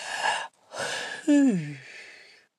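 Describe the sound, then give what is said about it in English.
A deep breath, heard alone as breathy rushes of air that end in a long, voiced sighing exhale whose pitch slides downward before fading out. “So let's take a breath. Let's take a breather as I speak.”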